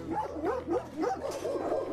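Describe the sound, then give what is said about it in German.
Dogs barking in kennels at an animal shelter in Cologne: many overlapping barks and high, whining yelps in a continuous, restless chorus at moderate loudness. “Mit Hester Pomeräning ging es jetzt vorbei im Köln-Zollstocker Tierheim an den Hundezwingern. Die kannten uns nicht, haben keine Ruhe gelassen.”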